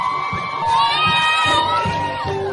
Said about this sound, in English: with shouts of joy and tears of happiness.